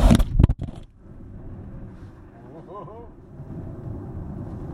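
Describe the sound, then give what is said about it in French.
Heavy, wide, low-slung vehicle driving in snow: a few sharp knocks at the start give way to a steady low engine and road rumble, with a brief wavering whine in the middle. “Surtout dans la neige, ça va être quand même particulier de, voir ça comme ça. Ah, ça se tient quand même bien, ça se comporte très très bien ces véhicules-là.”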